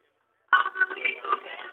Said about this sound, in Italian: siamo in piena fase concerto, quello che vi avevo preannunciato è arrivato, vi faccio sentire brevemente.